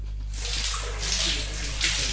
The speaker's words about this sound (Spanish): Ah, qué lindo, bañarse con agua calentita.